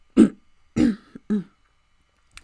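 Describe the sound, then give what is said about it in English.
A voice acts out a man clearing his throat: three short, gruff rasping bursts in a row, then a faint click, with silence between and no talk. “Finally, Harrington cleared his throat.”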